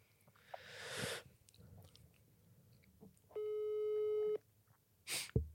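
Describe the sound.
A steady telephone call tone sounds for about a second while a call is being placed. Soft handling noises come before it, and sharp noisy bursts follow near the end.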